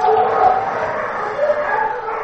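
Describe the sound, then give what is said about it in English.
Dogs bark, yip and whimper at a rescue center, where many dogs are housed. The barking is loud and continuous, with several animals calling over one another without pause. “The water and music are supposed to calm the dogs, but they still bark and jump up happily as people pass by.”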